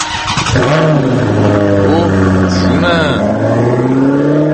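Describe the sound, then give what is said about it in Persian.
An Iranian-made car engine starting and accelerating away: after a brief start, a loud buzzing engine note sweeps upward, then holds and wavers through a few revving surges before settling into a steady drone. “اینم صدای استارت و ساخت ایران بعد از دوم خرداد 76 بود. بله ایران داشت با همین سرعت ساخته می شد، دقیقا با همین سرعت که شنیدید این ماشین رفت، یعنی پاشو گذاشته بود رو گاز داشت می رفت.”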